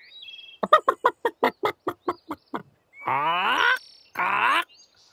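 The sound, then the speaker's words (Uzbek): A rooster pecking at grain and worms gives a quick, even series of short, sharp clucks. Two longer, harmonic crowing calls follow with a pause between them, and no voices are heard. “Shu payt don terib, chuvalchang cho'qiyotgan quvnoq xo'rozvoy Petya uning yig'isini eshitib qolibdi.”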